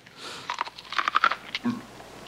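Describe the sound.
Crisp crunching as someone bites into and chews crunchy raw food: a few sharp, brittle bursts arrive close together, then a last crunch, all fairly faint with no talk.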